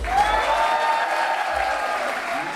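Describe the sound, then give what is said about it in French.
A mostly student audience cheers and claps on cue at a charity stand-up comedy night in a university theatre in Liège. The burst is loud and steady, with bright raised voices over dense clapping. “Attention, à trois, vous me faites le bordel, je veux qu'on nous entende jusqu'au guillemin, ça va ? 1, 2, 3 !”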